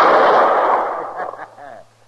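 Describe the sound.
A loud gunshot from a holstered gun quick-drawn and fired at bottles in a radio drama, a sharp blast whose rumble trails off over about two seconds before a voice comes in.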